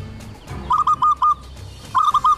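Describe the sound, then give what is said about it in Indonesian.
Zebra dove cooing: two quick series of short, clear, tonal notes, a few in the first run and a few more in the second, with a brief pause between them over a low background murmur. “Itu suara burung perkutut. Suaranya dekat sekali.”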